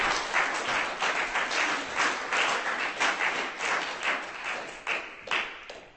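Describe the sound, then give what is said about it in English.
An audience claps for a performer at a poetry reading. The clapping is dense and sustained, with a few sharper, louder claps near the end. “Give him a hand. Keep it going.”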